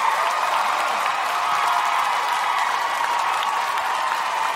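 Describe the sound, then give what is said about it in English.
A studio audience applauds and cheers to welcome a guest onto a talk show, a thick, even wash of clapping that stays loud and constant from start to finish. “I go on hardball. I don't get that type of applause.”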